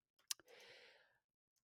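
Keyboard keys tap a few times in quick succession, very faint and alone, followed by a soft breathy hiss that fades out.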